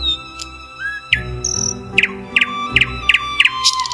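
Birds chirp and whistle in many short, bright calls, with thin sustained tones between them and quick paired chirps repeating in the second half.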